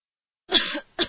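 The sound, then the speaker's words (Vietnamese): A woman's cough, a short rough burst that is followed after a brief pause by a second, shorter cough that cuts off at the end. Both are fairly loud, with no talk. “Thiên Hậu ho một tiếng, không biết do bị trọng thương hay là chột dạ”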